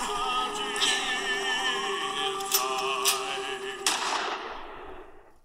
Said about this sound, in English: It escalated quickly. I mean, he shot the things that we don't like there.